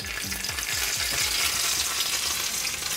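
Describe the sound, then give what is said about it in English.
Hot oil splattering and sizzling as meat and cheese fry in a pan: a steady, dense crackle that holds at an even level throughout, with no voices. “Now the splattering comes from the oil getting inside, touching the meat and the cheese, and it's kind of splattering.”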